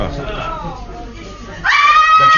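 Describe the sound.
A woman screams, high-pitched and sustained. The loud scream breaks in abruptly after a quieter opening with a voice.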